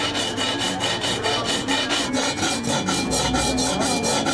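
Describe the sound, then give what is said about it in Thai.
Hand filing with a rasp on a workpiece: steady, rhythmic rasping made of many quick back-and-forth strokes. It is continuous and fairly loud throughout, with no talk. “งานตะไบนี่เป็นงานมือนะคะใช้เวลาประมาณ 2-3 ชั่วโมงต่อ1ชิ้นนะคะ”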